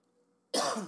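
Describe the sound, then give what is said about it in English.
A person gives a single sharp, loud cough that bursts out of near-silence and trails off briefly. “still coughing. Drink some coffee.”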